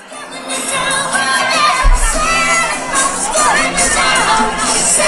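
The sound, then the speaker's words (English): A crowd with children shouting and cheering at a Make-A-Wish Christmas tree event in downtown Montreal, a loud, continuous mix of bright young voices and general crowd noise. “That was the sound of the annual Trees of Joy event.”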